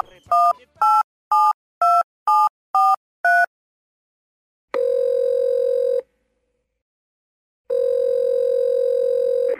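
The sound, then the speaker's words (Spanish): A telephone number is dialed with seven quick, even keypad tones in a row. Two long, steady buzzing ring tones follow, separated by a silent pause. The tones are loud and no one speaks. “Claro, llame acá, mire. Bueno, voy a llamar.”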